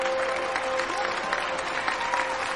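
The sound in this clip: Audience applause after a stage performance: a dense, even patter of many hands clapping at once, holding a steady, fairly loud level from start to finish without a break.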